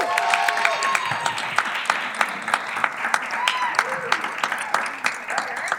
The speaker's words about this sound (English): Everyone, please put your hands together for Jennifer Cation Armstrong, everyone.